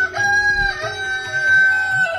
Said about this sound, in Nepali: भाले बासिसक्यो होला,